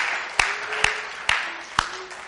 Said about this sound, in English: Who knows how to applause? Who knows how to clap a little bit?